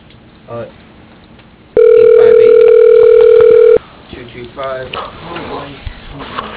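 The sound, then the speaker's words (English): Ringback tone of an outgoing telephone call: a single steady, loud two-second tone with a constant pitch. Talking can be heard before and after it. “Calling Cardiff, C-A-R-D-I-F-F, as in Frank,”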